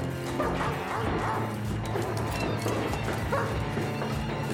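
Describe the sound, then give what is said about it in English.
A dog barks and yips as it chases someone up a stairwell. The repeated barks and whimpering yelps sit within a dense, steady layer of other sound. “Reaching the bottom, Jerry Lee hops out and runs up the stairwell to pursue Billy. Billy, seeing the dog, turns and frantically runs up the stairs.”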